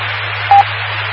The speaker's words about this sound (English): Let me let it drop to reassure myself.